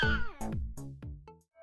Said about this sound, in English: My favourite feline and I had a great afternoon getting them on, and the scratch marks are healing nicely. Isn't that right, Admiral?